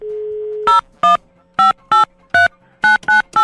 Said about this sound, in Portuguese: Deixa eu ligar pra mais um. Deixa eu ligar aqui pra mais um.